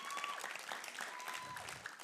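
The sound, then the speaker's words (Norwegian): Audience applause at a youth meeting: dense, steady clapping that fills the whole stretch at an even loudness without any clear break. “En applaus for Alex, folkens.”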